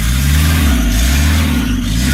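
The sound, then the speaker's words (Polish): Car engine revved to high RPM just after a hard start, with something whistling or chirping in it; a loud, steady, low droning hum with layered harmonics holds throughout, with no voices. “I tak pracuje sobie ten silnik. O, tutaj coś tam świszcze. Świerczy. Tak, ale może wysokie obroty”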